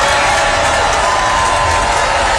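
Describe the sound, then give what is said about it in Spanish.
Applause from an audience reacting to a political speech announcing a cash dividend: dense, steady clapping blended with crowd noise, continuous and even in loudness with no breaks. “yo encontré que aplaudieron poco para la cantidad de plata que era, ¿no? Poco.”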